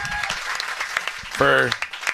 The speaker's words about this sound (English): We have a round of applause.